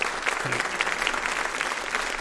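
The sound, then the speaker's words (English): Applause from an audience at a live comedy event: a dense, steady clatter of many hands clapping at even loudness for the whole stretch, with no voices over it. “Ladies and gentlemen, big round of applause to Susan Murray.”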